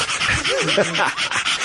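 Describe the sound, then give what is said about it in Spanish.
A dog panting in quick, rhythmic breaths, loud and continuous throughout. “El perro, la gran parte de la eliminación de ese calor es a través de precisamente ese jadeo, que además lo haces espléndidamente bien.”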